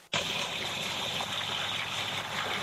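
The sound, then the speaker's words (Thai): Earthquake rumbling comes in abruptly as a steady, dense roar that holds without a break. “นี่คือเสียงเหตุการณ์แผ่นดินไหว”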